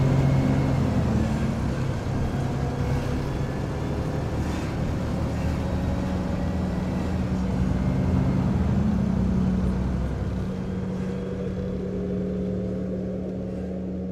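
A bus engine rumbles in a steady low drone as the bus pulls away, growing slightly quieter toward the end.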